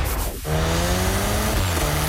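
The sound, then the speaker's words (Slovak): A Cupra car engine roars loudly with a strong droning tone that climbs slightly in pitch, after a brief swooshing sweep at the start. The engine and tyre sound runs steadily throughout, with no voices. “Tomu hovorím zvuk. Kupra.”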